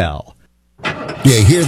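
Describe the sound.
A car engine starting: after brief speech and a short silence, a burst of cranking noise gives way to a loud, roaring engine.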